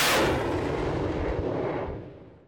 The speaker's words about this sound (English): It's basically a pickup truck outfitted with rocket launchers. Using pipes from the larger Soviet designed BM 21 Grad multiple rocket launcher developed in the 1960s.